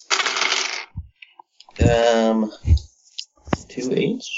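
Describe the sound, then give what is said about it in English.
Nine dice rolled across a table during a tabletop game, a brief clattering rattle near the start, with people talking around it. “2, 4, 6, 8, 9 dice. Rolling.”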